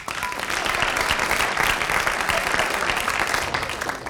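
Audience applause, a dense, steady wash of many hands clapping that holds at an even, moderately loud level for about four seconds.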